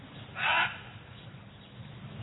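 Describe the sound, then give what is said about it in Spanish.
A raven croaking once, a brief harsh rasping call standing out over a steady low background hum. “El cuervo enronquece su graznido para anunciar la fatal entrada de Duncan en este castillo.”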